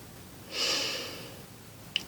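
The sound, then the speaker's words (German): A deep inhale during a guided relaxation exercise: a soft, airy breath that swells in and then tapers away over about a second. A brief faint click follows. “Einatmen”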